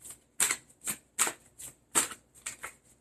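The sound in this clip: Playing cards are shuffled and drawn from a deck during a card reading: a quick, evenly paced run of several soft, crisp riffling bursts, each with a sharp start, heard alone.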